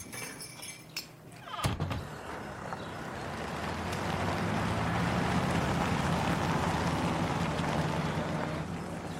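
A car being readied for a trip gives a sharp thump, then a steady engine rumble builds up and holds.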